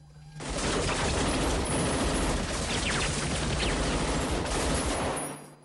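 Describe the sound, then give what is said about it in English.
Gunfire from young soldiers shooting at targets on an indoor firing range: a dense, loud barrage of overlapping shots that runs continuously for about five seconds without a clear pause. “Targets slide past, the young soldiers shoot the uniformed enemy targets and leave the civilian-looking targets alone.”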